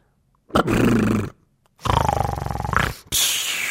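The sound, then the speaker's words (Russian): An uncle snores loudly in a bedroom, and the snoring sounds like a tiger's roar: three long, harsh, rumbling bursts with short gaps between them, the second one rattling and rising in pitch toward its end. “Когда они услышат его храп, то подумают, что рычит тигр, и не решатся войти.”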